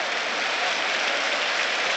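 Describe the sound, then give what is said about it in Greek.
Home crowd of Trifylia applauding at a basketball game before two free throws: steady, dense clapping that stays loud and even without a break. “2 βολές για τον Παντιό. Χειροκροτεί ο κόσμος του Τριφυλιού.”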